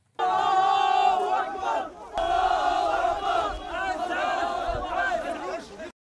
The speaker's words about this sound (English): Allahu Akbar, they cried, as once again, Europe is in crisis.